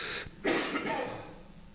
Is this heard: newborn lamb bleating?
no